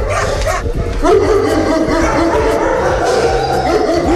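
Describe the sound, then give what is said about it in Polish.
Many dogs bark and yip together in a shelter kennel hall with more than thirty pens. The overlapping barks form a loud, dense, continuous chorus throughout. “Dla psów, jak widać, słychać je, szczekają. Tutaj mamy 30 kilka boksów. Normalnie jest cicho, dopiero jak wchodzą ludzie, to się robi głośno.”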